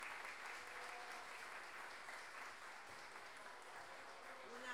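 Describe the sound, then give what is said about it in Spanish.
Audience applause at a payador improvised-verse contest, a steady wash of clapping and cheering that holds loud and even for the whole stretch, with no voices clearly standing out. “a Cecilia Astorga Arredondo y pido un aplauso también para ella.”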